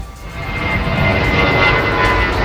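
Steady, loud drone of an airplane engine at an aviation show: a continuous broad roar with a faint, even whine above it, holding level throughout with no talk.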